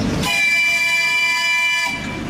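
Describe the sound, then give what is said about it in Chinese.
A small children's park train in Harbin sounds its whistle as it pulls away from the platform: one loud, steady, high-pitched blast of about a second and a half that stops abruptly. “汽笛又一次鸣响，小火车缓缓驶出站台。”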